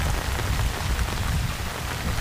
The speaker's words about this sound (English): The rain here can be torrential.